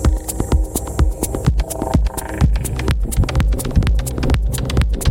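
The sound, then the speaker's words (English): Kick drum beat from a track playing in DJ software, with steady punchy thumps in a regular pulse over layered electronic tones. “Make it a little bit louder so you hear it. No, maybe not that loud. So you hear, I now follow the kick.”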